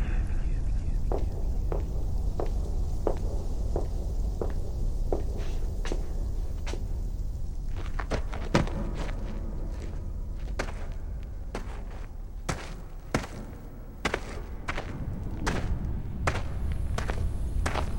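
Footsteps walking, a run of soft, evenly spaced steps over a constant low hiss, later turning denser and more irregular with a few heavier thuds.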